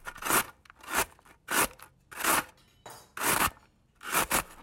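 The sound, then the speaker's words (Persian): Peeled yellow potatoes being grated on a coarse grater, a series of rhythmic rasping strokes with short pauses between them. “بعدش یه رنده دارم که با دونه های درشت شروع میکنم به رنده کردن سیب زمینی.”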